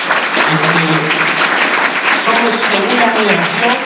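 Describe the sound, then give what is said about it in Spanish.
Loud, sustained applause from an audience at a company stage event, cheering for team leaders. A thick wall of clapping has voices mixed in. “que yo creo que me den un fuerte aplauso.”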